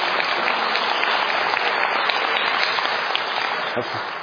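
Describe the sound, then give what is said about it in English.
Steady applause from a Presbyterian church audience marking a minister's ordination anniversary, a dense, even wash of many hands clapping that holds at constant loudness for the whole span. “I've told you before about this clapping. We're a Presbyterian church. We don't clap in Presbyterian churches.”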